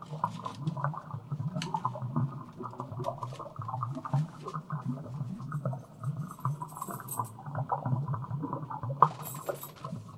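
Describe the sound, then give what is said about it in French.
Water drops trickling into a stone basin, an ongoing irregular patter of many small drips and wet splashes at fairly low volume. “je vous laisse apprécier les gouttes de sang, pardon, d'eau qui coulent dans un vase, non pardon, un bac en pierre.”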